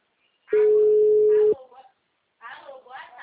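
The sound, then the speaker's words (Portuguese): A single steady ringback tone sounds on a telephone line for about one second, with a voice over it. After a short silence, talk follows. “Calma aí que eu tô ligando pros meus.”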